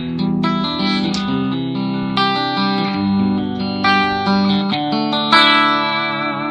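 An electric guitar plays with a clean tone and no chorus effect, sounding sustained chords and single notes that ring on continuously and fairly loudly, with no talk.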